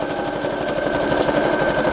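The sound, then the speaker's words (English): A sewing machine stitching a quilt: a loud, steady, rapid mechanical chatter with a constant whirring hum, running without a break and with no talking. “Sewing is not as scary as you think. If I can do it, anybody can. Get one at Goodwill for $20 so you're not afraid of breaking your fancy quilting machine.”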